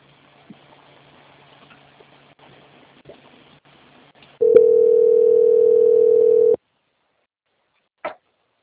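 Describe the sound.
A steady telephone line tone plays while a bank call is transferred. It holds one pitch for about two seconds against faint line hiss, stops abruptly, and a single short click follows.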